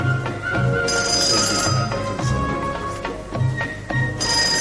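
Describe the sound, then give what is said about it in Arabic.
Telephone ringing in a series of repeated electronic bursts, mid-pitched and rich in harmonic tones, recurring steadily across the whole stretch with short breaks between rings. “عائشة تليفون ياقفز ياقفز تليفون”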